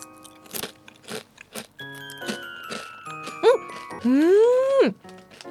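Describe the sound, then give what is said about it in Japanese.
Crisp crunches from biting wavy-cut peanut miso potato chips, several sharp bursts mixed with chiming tones and a sustained sweeping electronic tone. “歯触り豊かなポテトチップの食感が癖になる、このウェーブしたね、なみなみのデコボコした形のポテトチップスですね。いただきます。”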